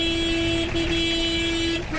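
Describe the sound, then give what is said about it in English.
Car horns blare on a crowded narrow road, a sustained steady honk held for nearly the whole moment over a dense traffic rumble, loud and unbroken, with no talk. “Car horns soon blare as thousands jostle for space on the narrow road to begin their rugged journey back home.”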